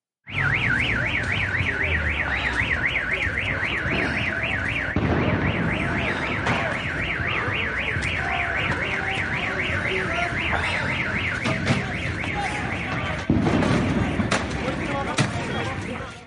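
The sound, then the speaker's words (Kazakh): Car alarms wailing in a street where gas has been fired: a loud, continuous warbling tone swings rapidly up and down without a break, and the alarm's pattern shifts partway through before carrying on just as loud to the end. “Көшедегі дауыстан көліктердің сигнализациясы шулап жатты.”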